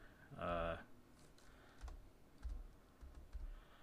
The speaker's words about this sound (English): let me look it up real quick. While I'm typing, I'll talk too